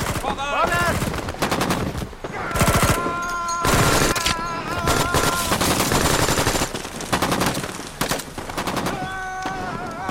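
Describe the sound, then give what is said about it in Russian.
Gunfire in a war film as partisans on a bridge shoot at German troops. Loud, rapid bursts of machine-gun and rifle fire repeat many times, crackling almost without pause throughout. “Партизаны бегут по мосту в сторону позиции русских, стреляют по немцам.”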